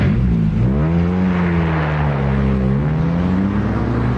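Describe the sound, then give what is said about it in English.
A car engine runs in a loud, steady low hum, its pitch wavering gently up and down throughout, with no voices over it. “Having trouble with your car”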